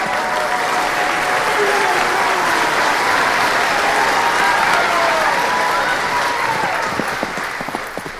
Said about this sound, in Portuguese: Pierre e as dançarinas aplaudem os Blanchard.